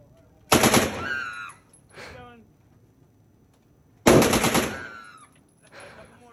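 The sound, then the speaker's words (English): Two loud gunshots from a gun being fired by a novice shooter, spaced a few seconds apart. Each sharp crack is followed by a ringing tail and a fainter secondary burst. “Okay, she should never shoot a gun.”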